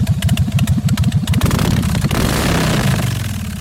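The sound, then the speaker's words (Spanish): A Harley-Davidson motorcycle engine chugs with a loud, lumpy, uneven idle pulse, then opens into a denser, rougher roar that gradually eases off. “Esto, yo además sé que lo tiene registrado, el sonido del motor de la Harley. La Harley Davidson. El sonido de sí, Harley Davidson.”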